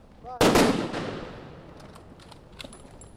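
A firing-squad rifle volley sounds as one sharp, loud crack, and a long rumbling tail slowly fades into quiet afterward.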